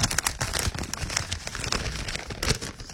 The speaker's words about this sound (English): Just got an envelope here.